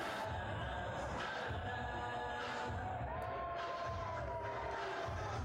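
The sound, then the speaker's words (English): A crowd at an ECW wrestling event, Holiday Hell in December 1995, cheers in a faint, steady roar of mixed voices, with occasional shouts and low thuds throughout. “This crowd's into it.”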